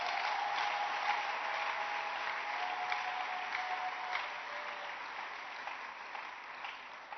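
Church audience applauding, a steady wash of dense clapping that holds at an even level through the whole clip with no talk over it.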